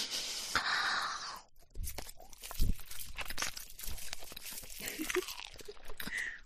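Autumn rice with mountain vegetables and mushrooms is being eaten, with soft crunching and chewing mouth sounds that come as a series of small, uneven bites after a louder stretch at the start.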